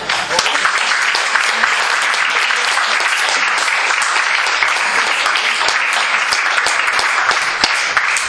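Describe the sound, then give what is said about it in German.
An audience applauds after a reading at a German-language gathering, with loud, dense, even clapping that holds steady without a break from start to finish. “Dürfen wir Ihnen einen kleinen Applaus geben für diese”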